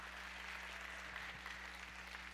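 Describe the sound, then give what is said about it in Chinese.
A church audience claps to give glory to God, a faint, steady patter of hands over a constant low electrical hum. “Amen， 拍手将荣耀给我们的神。”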